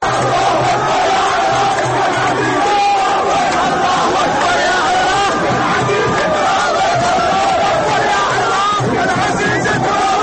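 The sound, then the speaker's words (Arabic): Iraqi football fans celebrate in the main stadium in Bahrain after their national team beats Bahrain to reach the final, a loud, unbroken crowd roar of rhythmic chanting, yelling and cheering. “هكذا احتفلت الجماهير العراقية في الملعب الرئيسي في البحرين عقب فوز المنتخب الوطني على نظيره البحريني وتأهله إلى المباراة النهائية”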